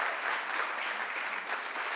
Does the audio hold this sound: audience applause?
yes